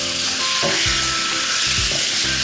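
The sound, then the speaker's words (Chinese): Spring bamboo shoots fry in a hot wok over high heat with light soy sauce, giving a loud, steady sizzle and a few low scraping stirs breaking through the hiss. “接下来我们要放调料，首先生抽开大火，把这个春笋倒进去”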